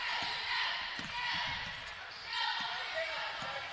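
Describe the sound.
Basketball dribbled on the court during a women's game: many quick, dull thuds of the ball bouncing in an uneven rhythm while a voice talks over them.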